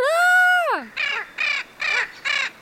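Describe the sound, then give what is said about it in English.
Short raspy calls of a Spix's macaw (little blue macaw), a medium-sized blue parrot with a black, robust beak: one longer harmonic squawk that falls in pitch at its end, then a run of brief, rasping calls in even rhythm. “But the most characteristic feature of these macaws is their voice, a short and raspy”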